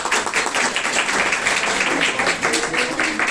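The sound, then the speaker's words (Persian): A classroom audience at a poetry lecture applauds, a steady, dense wash of many hands clapping at an even loudness throughout. “به افتخار خودتون دست بزنید.”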